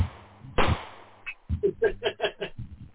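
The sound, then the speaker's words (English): A gunshot sound effect for shooting fruit bats: one sharp, loud crack, then a run of shorter, rhythmic bursts that pulse steadily to the end. “He's got his shooting of fruit bats, which is this.”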